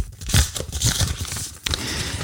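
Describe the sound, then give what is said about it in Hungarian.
Paper tearing and crinkling as an envelope is ripped open, a rough, continuous rustle with a brief break partway through before the crackling goes on. “bontom a borítékot”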